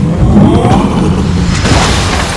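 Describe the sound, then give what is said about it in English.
A deep, loud earthquake rumble with a shockwave, a continuous low roar that stays heavy for about two seconds and eases slightly at the end. “The Earth's mantle cracks and then ruptures. The shockwave causes a mighty earthquake that destroys homes.”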